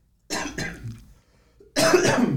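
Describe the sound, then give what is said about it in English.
A person coughs: two rough bursts, a short pause, then a longer, louder throaty cough that sounds close to throat clearing, with no speech. “I'm gonna cough for her real quick.”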